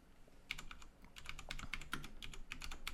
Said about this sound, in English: Here, I'll look it up on Google. I'll type it.